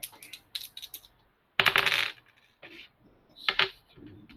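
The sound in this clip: Dice rattle and clatter across a surface during combat in a tabletop role-playing game, in a few short bursts of sharp clicks and knocks with quiet gaps between them.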